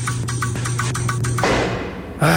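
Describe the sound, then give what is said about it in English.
An old air conditioner rattles during a Wabash Valley heat spike, with a steady low hum under a regular, pulsing rattle that gives way to a loud rush of noise. “That's the sound of a Wabash Valley heat spike hitting an old AC. You want a breeze, but all you get is a rattle.”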